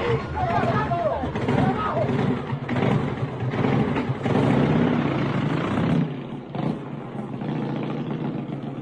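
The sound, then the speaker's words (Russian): A motorcycle engine runs deep in a forest, a dense, rough drone mixed with rough men's voices, then the noise drops to a quieter, lower hum. “Вдруг мальчики услышали выстрелы, шум грубых мужских голосов и звук отъезжающего мотоцикла.”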